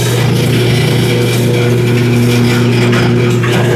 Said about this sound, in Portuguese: Então vamos ligar a máquina e vamos começar a moer.